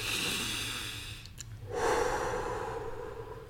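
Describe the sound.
A person takes a calming breath: soft, airy breath sounds in two stretches with a brief quieter gap between them, faint and with no talking.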